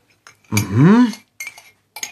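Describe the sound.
Cutlery and dishes clinking at breakfast in a kitchen: a few short, bright clinks before and after a brief tonal sweep in the middle.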